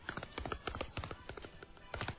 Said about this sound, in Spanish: Es un pequeño caballo. Ese también está muy bien.